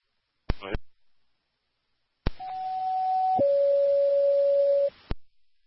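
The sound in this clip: A fire dispatch telephone being dialled to call Rescue 3: a short burst of clicks, a pause, then a steady tone that steps down to a lower steady tone before cutting off abruptly.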